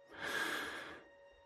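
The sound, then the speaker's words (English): A deep breath before a bedtime story reading comes as one soft, airy breath lasting under a second, faint and alone over a low steady hum. “Now, let's take a deep breath.”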